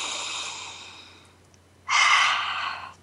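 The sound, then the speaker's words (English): A deep breath is heard as two long, airy breaths, one fading out, then a louder one after a brief pause, with no talking. “I want us to instead take a deep breath”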